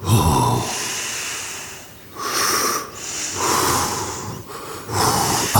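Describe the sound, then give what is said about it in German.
Slow, calm breathing in and out, airy and fairly loud, forms a few long breaths in a steady rhythm with short pauses between them. “Atme ganz ruhig mit mir ein und aus.”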